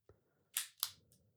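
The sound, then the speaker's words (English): A cigar cutter snips a dense La Flor Dominicana Andalusian Bull cigar in two quick, sharp snaps a fraction of a second apart. A faint click comes before them and a soft tick after, all fairly quiet. “All right, boys, let's cut this thing. See, we're getting on the cold draw on the wrapper.”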